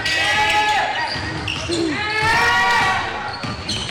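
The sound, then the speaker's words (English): Basketball dribbled on a court during a game, the ball's bounces blending into steady crowd noise with voices talking over them. “22 is going to have it at the wing, dribbling it up top”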